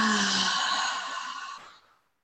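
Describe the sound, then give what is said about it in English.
A deep breath released out through the mouth, heard as one long, breathy exhale that holds steady and then tapers away to silence. “take our first deep breath in through the nose and hold and release out through the mouth”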